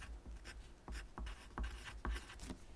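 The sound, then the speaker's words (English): A word is written down by hand: a quick series of faint, soft scratching strokes in an uneven rhythm, heard alone without talk. “Let me write it down.”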